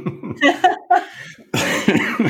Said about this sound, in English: Yeah, I'm coughing. Again, it's allergy season